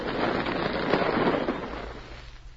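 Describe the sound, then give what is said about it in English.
An explosive blast tears through rock in a gold mine, a loud dense roar of rumbling, crumbling debris that carries for over two seconds and slowly thins out toward the end. “Now, over here. I'm going to blast through here, and that'll be... Tom, look out!”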